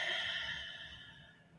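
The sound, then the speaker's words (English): A single slow, deep breath drawn down into the belly is let out as a soft, airy exhale that fades gradually over about a second and a half, faint and without talk. “So you basically just start by taking two or three deep breaths into your belly.”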